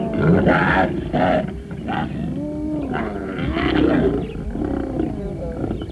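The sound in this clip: Lions snarl, growl and roar over a kill while the pride's cubs and half-grown young push for a place at the carcass. Deep, rumbling snarls overlap continuously at a steady, fairly loud level.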